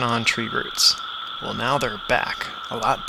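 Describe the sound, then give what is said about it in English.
A steady, high buzzing drone from Brood 13 periodical cicadas' mating call, made by vibrating timbals on the sides of their abdomens, runs continuously under a voice that talks throughout. “The noise you hear is their mating call. I'm in the midst of an insect orgy here. They make that sound by vibrating little timbals on the side of their abdomens.”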